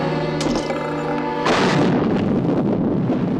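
A hand grenade thrown in a fight explodes in one loud, sudden burst that cuts across a steady musical tone, leaving a broad, rough roar that stays strong to the end.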